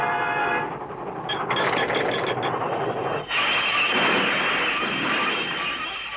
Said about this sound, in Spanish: ¡Ahí viene el tren!